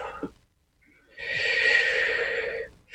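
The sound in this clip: A deep breath drawn during a guided meditation: one long, steady, airy breath lasting more than a second, preceded by a brief faint sound and otherwise quiet.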